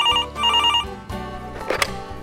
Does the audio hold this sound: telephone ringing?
yes